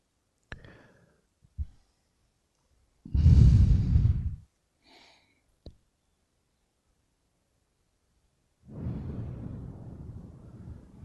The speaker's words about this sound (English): Strong breath in again, nice and deep.